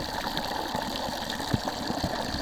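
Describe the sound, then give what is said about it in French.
A strong water jet roars steadily, recorded with the microphone underwater: a dense, even rushing with faint bubbling pops throughout and no voices. “Parce que je suis pas assez dans l'eau, si là le micro il est dans l'eau. Ah, mais là, c'est bien. Après là c'est aussi plus fort, le jet d'eau est plus fort quand même.”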